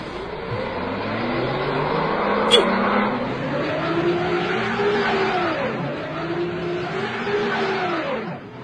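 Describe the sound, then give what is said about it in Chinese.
Car engine revving repeatedly as the wheels spin, stuck in mud on a narrow yellow dirt lane. The engine pitch climbs and drops in a steady cycle of straining revs that carries on throughout. “车轮陷在泥潭里了，走不了了。”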